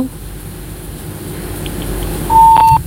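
A single steady electronic beep signals a dropped phone call, a mid-pitched tone lasting about half a second near the end, sounding over a low background hum.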